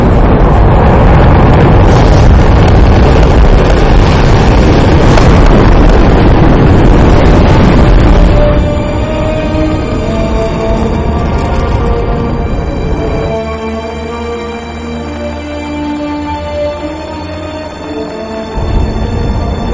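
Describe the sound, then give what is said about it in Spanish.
A SpaceX Dragon rocket lifts off with a loud, dense roar for about eight seconds. The roar then settles into a steadier, lower rumble with a droning tonal hum. “SpaceX, Dragon, estamos listos para el lanzamiento. Allá vamos.”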